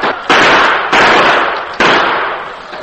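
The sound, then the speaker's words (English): Three loud gunshots in a western drama, each a sharp burst followed by a long, slowly fading rumbling tail that runs into the next shot. “Open fire. Let them have it.”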